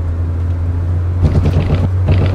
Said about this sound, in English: This is the sound of someone driving along a road at night.